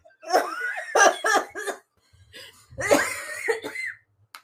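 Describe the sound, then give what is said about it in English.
Coughing mixed with laughter comes in two clusters of rough, voiced bursts, a few sharp coughs and breathy laughs in each, loud and alone with no talk. “what is up with my coughing and laughing today?”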